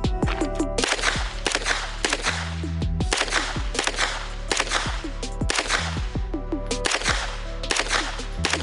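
Gunfire at a target from 25 yards: many sharp, cracking shots in quick, uneven succession, each a loud snap with a brief ringing tail, with no talking.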